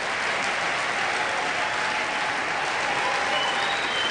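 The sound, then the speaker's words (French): An audience applauds at a church gathering after a performance, with steady, dense clapping that stays loud and continuous throughout. “Là, qui acclame, les enfants ou les parents?”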